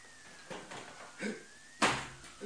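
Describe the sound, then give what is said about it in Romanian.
A window is opened in a radio play. A few quiet clunks and knocks are heard, the loudest bang near the end, followed by a softer knock. “Să deschid fereastra!”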